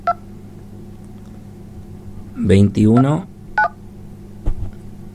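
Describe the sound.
Telephone keypad tones dialing a phone number: a few short, separate electronic beeps, with a man speaking briefly between them.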